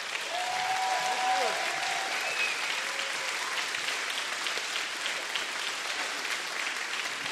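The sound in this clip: Applause from a church audience welcoming Pastor Craig Groeschel to the stage: loud, steady, sustained clapping for about seven seconds, with a few cheering voices rising from the crowd early on.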